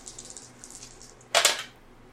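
Glittery dice are rolled during a tabletop roleplaying game. A faint patter of small clicks gives way to one sharper clattering burst as they land, and no one speaks.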